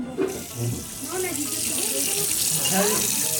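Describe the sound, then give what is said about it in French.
Tap water runs into a sink as children wash their hands two at a time, a steady hissing splash that stays constant throughout while young voices chatter briefly over it. “Et les enfants sont donc invités à aller se laver les mains deux par deux dans l'évier.”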